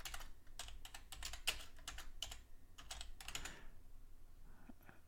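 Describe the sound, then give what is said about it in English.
Rapid typing on a computer keyboard, with many crisp, uneven keystroke clicks in quick bursts that fade to near silence in the final second. No voices. “It'll be easier if I just type it”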